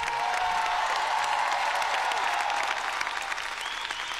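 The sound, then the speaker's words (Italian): Judges and audience give a standing ovation after a musical performance, with sustained, dense applause that holds a steady level throughout. “standing ovation da parte dei giudici e credo anche da parte del pubblico”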